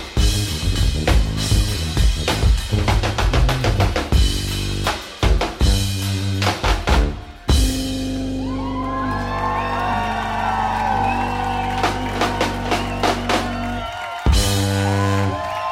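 A brass band plays a live cover: punchy rhythmic horn hits give way to a long, loud sustained chord, with crowd whoops and cheering rising over the music.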